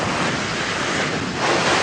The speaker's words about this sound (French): Vous entendez, c'est le bruit de la mer.